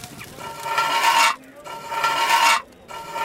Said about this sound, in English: Now take it to Kron, the mother of Fionnlu, and she will grind it sharp for you.